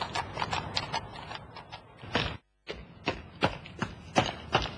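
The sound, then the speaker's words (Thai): Galloping hoofbeats as a sound effect in an audio drama, a rider hurrying a horse toward a temple. Many quick, irregular clops run throughout, with a short break midway. “จึงรีบควบม้าผ่านเข้าไปยังเทวาลัยนั้น”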